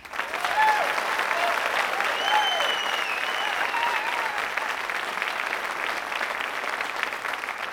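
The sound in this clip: An audience at a live show applauds to welcome actor George Takei. The clapping is steady and sustained, holding at a strong, even level before easing slightly toward the end.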